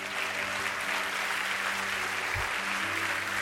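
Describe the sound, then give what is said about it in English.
A church audience applauds in a dense, even wash of clapping that holds at a steady level from start to end, with no break. “Come on, will you put your hands together for these ones that are coming?”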